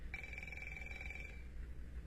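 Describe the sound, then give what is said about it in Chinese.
A telephone ringing for a business call: one sustained electronic ring of about a second, faint over a steady low hum. “稍等一下，喂，是个业务电话。”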